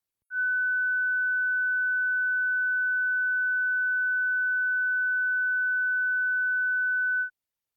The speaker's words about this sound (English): Sound I was 1,500 hertz.